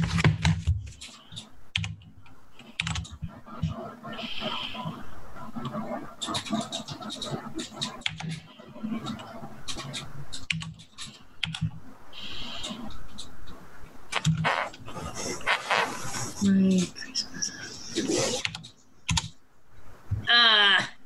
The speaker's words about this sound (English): I didn't type it right.